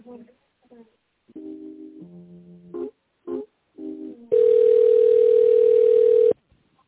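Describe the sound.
A telephone ringback tone sounds while a call is being connected, a steady, unbroken mid-pitched tone lasting about two seconds. A voice is briefly heard just before it starts.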